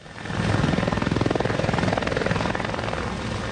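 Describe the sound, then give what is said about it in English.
Helicopters fly overhead ferrying firefighters from a contained blaze in Almeria province, southern Spain, with a loud, steady, rapid rotor thumping and engine drone that holds throughout. “helicopters buzzing through the air, ferrying firefighters who've contained a blaze burning in Almeria province.”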